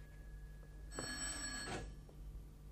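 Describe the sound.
A telephone bell rings once, a bright metallic burst lasting about a second. It is fairly faint and sits over a low steady hum, with no voices.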